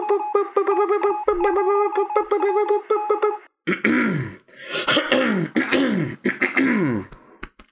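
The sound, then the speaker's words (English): Someone clears their throat over and over: first a run of rapid, buzzy voiced rasps, then after a brief pause a series of rougher, louder hacking bursts, all alone without talk. “Keep clearing out your throat.”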